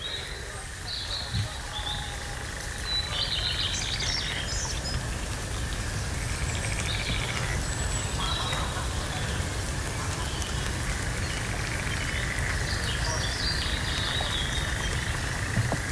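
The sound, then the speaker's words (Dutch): A European nightjar churrs continuously in a forest while a common cuckoo calls faintly in the distance, over a constant patter of dripping water and scattered bird chirps. “Nee, dat is zeer zeker de nachtzwaluw. En heel in de verte ook nog een koekoek die al aan het roepen is.”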